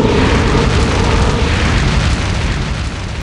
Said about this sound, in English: Drogon swings his head about to face the Iron Throne and unleashes a long, continuous blast of dragonfire.